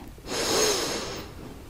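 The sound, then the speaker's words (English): A single audible in-breath, a breathy, airy inhale through the nose that swells over about a second and then eases off. No voice is heard with it. “Breathe in.”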